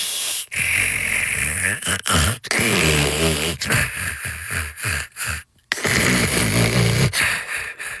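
Snoring from a sleeper: loud, harsh, rasping breaths repeat many times with short gaps between them. Some breaths carry rough, grunting snorts.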